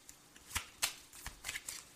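Playing cards being shuffled and handled for a card reading: a run of crisp, papery riffling bursts of varying strength, fairly faint and without voices.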